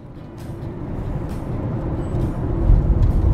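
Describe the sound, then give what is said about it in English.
A car driving through Thompson, Manitoba, gives a steady low road rumble and hiss that swells gradually louder over the few seconds, with no voices. “I'm driving through Thompson, Manitoba once again.”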